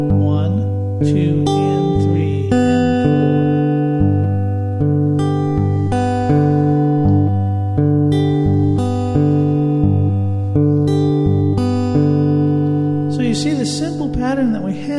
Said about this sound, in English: When I go for that high G note, I'm going to also pair that with the B note of the open B string. So that will sound like this.